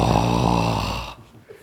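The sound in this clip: A man's voice imitates Aslan breathing heavily on children: one long, voiced, breathy exhale with a growling tone, lasting about a second, then near silence.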